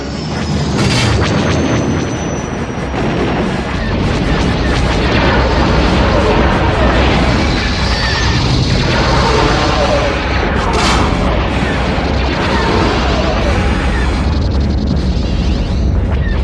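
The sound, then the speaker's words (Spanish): In a film sound effect, a huge triangular imperial cruiser fires laser blasts at another spaceship, which explodes. Booming blasts and rumbling explosions run loud and dense throughout, with sharp bursts standing out. “Un crucero imperial, enorme y triangular, dispara rayos sobre otra nave.”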